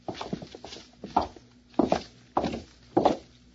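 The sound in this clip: Footsteps walk across a hall toward a room, a steady series of firm, hollow thuds. The first few come quick and light, then they settle into a regular pace of about one step every half second.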